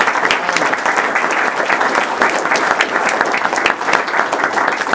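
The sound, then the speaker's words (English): An audience gives a big round of applause to honor an executive committee. The clapping is dense and continuous, loud and sustained from start to finish. “And I want to recognize you. And thank you. Give you a big round of applause.”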